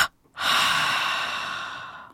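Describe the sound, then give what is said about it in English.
Forceful exhalation in a tense-and-relax breathing exercise: a brief puff of breath, then a long, loud, breathy rush of air that fades slowly. “Now, let's inhale and tense the whole body with a double breath. Throw the breath out”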